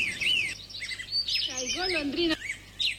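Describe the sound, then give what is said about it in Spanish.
A swallow chirps in quick, high twittering bursts, mixing sharp rising and falling notes with a stretch of lower warbling calls, the sounds overlapping and varying in loudness throughout. “Golondrina.”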